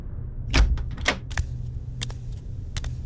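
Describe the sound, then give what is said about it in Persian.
A door opens in a room with a few short knocks and clicks of the latch and hinge, set over a steady low hum. “همش توی اتاق راه میرفتم تا اینکه صدای باز شدن در اومد.”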